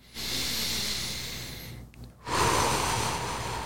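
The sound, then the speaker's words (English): A person draws a deep breath: two long, loud rushes of breath noise separated by a brief pause, with no talking. “we can take in a breath right now,”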